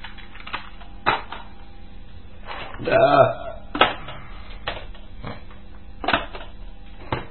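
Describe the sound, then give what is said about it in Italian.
A cassette tape being changed on a player: a few mechanical clacks and clunks, with a louder rattling burst in the middle, while a voice talks. “appunto un'altra cassetta che va bene. Cambiamo nastro.”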